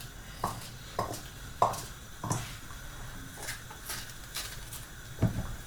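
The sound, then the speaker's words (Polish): A knife cuts peppers into pieces for lecho, faint knocks falling at roughly half-second intervals, then a pause before a couple more chops. “I kroimy w takie same kawałki jak poprzedniczki.”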